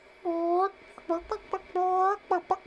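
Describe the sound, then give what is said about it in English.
A human voice imitates a chicken clucking: a drawn-out nasal bawk followed by a few short clucks, then the same pattern again, loud and alone. “Ted went up to the chicken and said, well, where did you come from, little guy? And the chicken said,”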